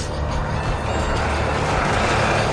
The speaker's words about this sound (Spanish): Un sendero sinuoso surca una planicie árida del desierto. El jeep de Sharon lo recorre levantando una polvareda a su paso.